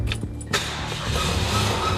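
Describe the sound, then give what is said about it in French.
Car engine starting after it stalled, as if out of fuel: a brief cranking whir catches into a loud, steady running engine that stays rough and won't build revs. “Tu vois, elle démarre, et j'arrive pas à avoir de régime. Elle tourne sur deux, trois pattes, quoi.”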